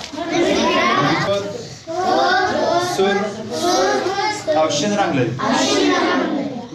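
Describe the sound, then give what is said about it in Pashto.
Children's voices at a village school near Tarinkot, where the classrooms have no proper roofs and bullet-holed walls: several young voices talk loudly in near-continuous bursts with short pauses between them. “دا ماشومان د ترینکوټ شاراړون په سولاسي مکی په یوداسي شونځي کې په زده کړو بوخت دي”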